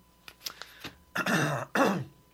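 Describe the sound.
Someone clears their throat: two harsh, rasping bursts, each lasting under half a second, preceded by a few faint clicks and breaths.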